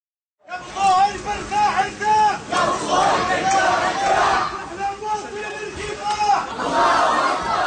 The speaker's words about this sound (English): That is the sound of a funeral procession moving through Gaza City today.